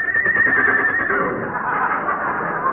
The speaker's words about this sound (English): Paul Revere's horse still sleeping.